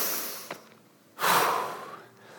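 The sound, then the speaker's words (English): One deep breath drawn in: a brief faint sniff, then a broad airy hiss that swells and fades over about a second, with no talk. “And I want you to begin by just breathing in.”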